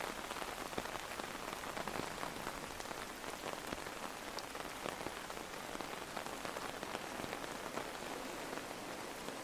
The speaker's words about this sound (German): Der Regen hat die meisten Menschen nach drinnen vertrieben.